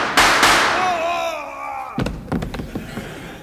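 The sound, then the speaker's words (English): Two sharp, loud gunshots ring out close together as a sheriff shoots a cowpoke at a bar. A ringing tail fades after them, then a voice speaks over a few scattered knocks. “Sheriff, why did you shoot that well-adjusted cowpoke? I don't know. I just shot him.”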